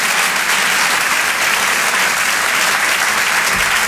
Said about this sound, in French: On peut l'applaudir.